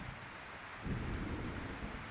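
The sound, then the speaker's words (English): Low rumble of thunder rolling through a forest over a bed of steady rain, swelling a little partway through and staying quiet and soft throughout. “Occasionally, the thunder echoes through the forest,”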